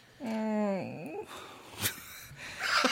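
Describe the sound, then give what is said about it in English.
A drawn-out groan of pain, low and voiced, wavers and bends in pitch before trailing off into breathy rustling and a few scattered noises. “Oh, the groan of pain.”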